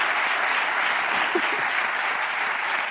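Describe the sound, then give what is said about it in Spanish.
Audience applause for two guests on a comedy show, about three seconds of steady, dense clapping that holds an even loudness throughout. “un aplauso para Pau y Jorge”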